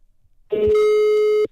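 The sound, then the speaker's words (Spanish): A telephone ringing tone on an outgoing call: a single steady, mid-pitched tone lasts about a second and cuts off cleanly, preceded only by faint low noise. “Ahí está. Ahí está marcando.”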